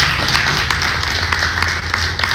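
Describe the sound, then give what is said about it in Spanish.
An audience applauds at a public event, a steady rustle of many hands with a few sharper individual claps standing out at irregular moments. “así que también un aplauso para ellos.”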